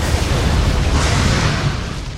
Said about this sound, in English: and the Jeep explodes